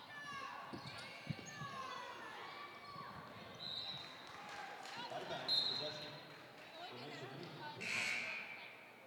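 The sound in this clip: A basketball is dribbled during a high school game between Piedmont and Marvin Ridge. Several bounces thump irregularly under a commentator's continuous voice, and high squeaks and crowd noise rise and fall faintly in the background.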